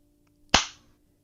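A single hard slap across the face, a sharp, loud smack that stands alone in silence and fades quickly.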